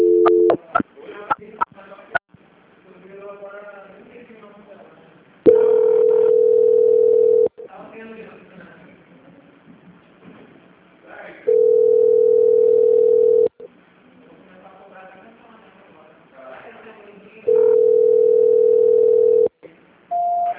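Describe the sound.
During a call transfer, three steady mid-pitched telephone tones, each about two seconds long, sound at regular intervals, with voice-like sounds between them and a few sharp clicks at the start.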